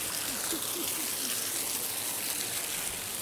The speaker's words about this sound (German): Und man kann jetzt von hinten unter den Wasserfall, hier tropft es nur ein bisschen, echter Adventure Trail. Ah, Aufnahmen hinterm Wasserfall.